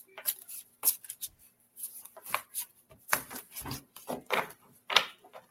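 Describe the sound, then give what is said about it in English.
Old, bent playing cards are shuffled in a rapid run of soft riffling and rustling bursts, fairly faint and irregular, with no voices. “Oh, these are old cards, so they're bent up.”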